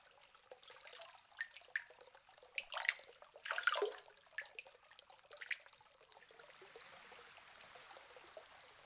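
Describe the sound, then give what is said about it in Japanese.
Hot spring bath water, carried in from spa towns around the country, trickles and splashes softly in uneven little bursts that swell briefly in the middle, then settle to a faint steady flow with no talk. “こちらのお湯は温泉になっていて、全国のいろいろな温泉地からお湯を運んできているそうなんです。”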